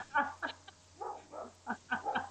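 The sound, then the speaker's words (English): A dog barks at home in a small farmhouse: a quick series of short, mid-pitched barks and yelps, some louder than others, over a steady low hum. “I just freaked out my dog.”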